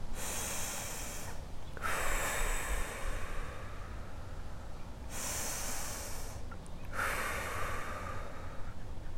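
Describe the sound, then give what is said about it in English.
Slow, deep breathing in through the nose and out through the mouth during a guided relaxation exercise: two full cycles of airy nasal inhales and longer, softer exhales, each breath a steady hiss with brief pauses between, with no talk. “take eight deep breaths in through your nose and out through your mouth.”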